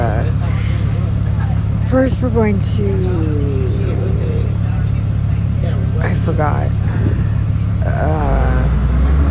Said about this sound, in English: It is kind of loud right now. I'm on the bus with a whole bunch of people from the Dream Center.